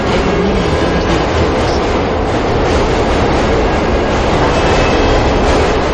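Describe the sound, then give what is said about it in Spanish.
A train passes on the opposite track at a station platform. It makes a steady, loud rumbling roar with rattling wheel clatter that fills the whole clip without a break. “El tren de la vía opuesta pasa.”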